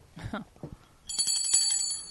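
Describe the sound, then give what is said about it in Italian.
A hand bell rings in rapid, repeated strokes, giving a bright, high, shimmering ring that follows a short burst of voice and then carries on steadily to the end. “Sveglia. Dove è la mia campana qua?”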